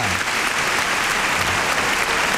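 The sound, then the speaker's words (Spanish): Crowd applause for a bullfighter at a young-bull fight, a steady, dense clatter of many hands clapping without pause for the whole stretch. “Agradece la ovación del público”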